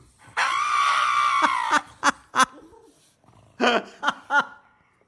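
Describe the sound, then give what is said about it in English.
A dog screams while getting its nails trimmed: one long, sustained high-pitched scream, then a series of short, sharp yelps in quick bursts. “So this dog... He makes it known he is not liking getting his nails did. Check it out.”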